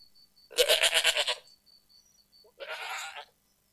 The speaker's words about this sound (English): Kambing. Kambing. Goat. Goat.